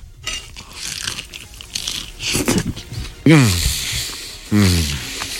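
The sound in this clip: Crunchy biting, chewing and wet rustling as messy food is eaten by hand, moderately loud, with brief voices breaking in during the second half.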